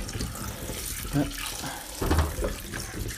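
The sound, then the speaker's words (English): Tap water rinsing freshly dug potatoes in a sink: a continuous splashing flow with a couple of brief, louder gushes as the produce is turned under the stream. “I'm just giving these a bit of a rinse off. Don't want to get them too clean.”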